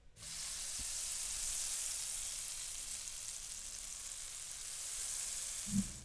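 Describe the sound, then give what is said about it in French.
An omelette mixture of two combined mixtures frying in a pan gives a loud, steady sizzling hiss that carries on without a break for about six seconds, with no voices. “combinez les deux mélanges dans une poêle et faites une omelette.”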